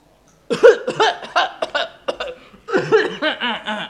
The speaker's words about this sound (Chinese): 假装咳嗽